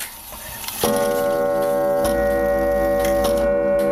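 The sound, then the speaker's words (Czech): A tall floor-standing clock, over two metres high and dating from the first half of the last century, strikes with a full, resonant chime: three loud strokes about a second apart, each ringing on into the next. “jsou více než možná 2 metry vysoké, jsou stojací, podlahové, nádherné a teď nám odbíjí.”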